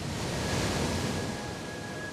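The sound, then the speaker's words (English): Ocean wave crashing against a seaweed-covered rock near the shore, heard as a steady, dense roar of white water and surf that stays loud and even throughout, with no voices. “A fierce wave hammers into the side of a rock, sending up a wall of white water.”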